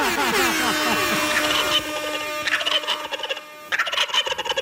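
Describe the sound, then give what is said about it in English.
A turkey gobbles in loud, rapid, rattling bursts. A long gobble is followed by shorter ones and a final choppy series of gobbles, with no talk. “It's fall supper season, and you know what that means. Turkey.”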